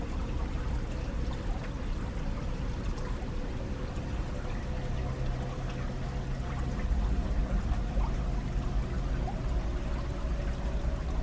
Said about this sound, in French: cette étendue d'eau, dont le courant calme passe devant vous.